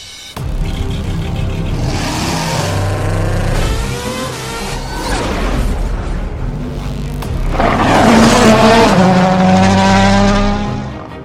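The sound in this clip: A rally car drives in the World Rally Championship video game WRC 9, its engine revving through repeated rising notes between gear changes, growing louder toward the end before easing off.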